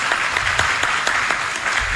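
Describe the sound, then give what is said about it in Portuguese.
A church audience applauds with brisk, steady clapping from many hands. The sound is loud and even for the whole stretch, with no voices. “Vamos aplaudir os irmãos que estão junto conosco?”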